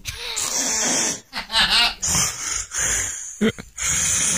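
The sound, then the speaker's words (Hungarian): A sleeping partner's snoring, played back from a recording: loud, rough, rasping snorts and breaths in irregular bursts, with short breaks between them, some harsh and noisy and some with a throaty rattle. “Ő is felvette a párját, ő így horkol.”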